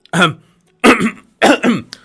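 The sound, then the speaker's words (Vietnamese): Dry coughs or throat-clearing sounds, a few short voiced bursts, each split into two quick pushes. They are fairly loud and separated by brief silences, with no talk. “Thấy thế, Ngọc Đế ho khan hai tiếng, làm mặt tỉnh bơ.”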